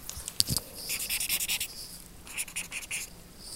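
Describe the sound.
Writing on paper, someone jotting down their worries in a quarter-hour session before bed. Soft, scratchy strokes come in short bursts, with a busy run early on and a shorter run near the end, faint and without talk.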